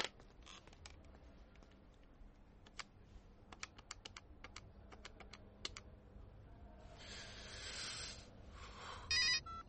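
Telephone buttons pressed to dial an international call, a run of quiet, irregular clicks, followed by a fainter ringing burble and a short tone near the end.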